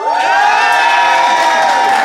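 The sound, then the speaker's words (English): An audience cheers and applauds to vote at a debate-style contest, producing a loud, continuous roar of shouting and whoops with some clapping beneath, sustained throughout. “So, the assembled audience, if you think Joe and Ben, and therefore Beth, is in the right, applaud now.”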